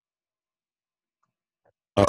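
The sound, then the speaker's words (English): One short, low burp erupts after near silence, loud and abrupt, lasting only a fraction of a second. “Why do you burp? Anyway, so no one wants to hear that. These are some sick burps.”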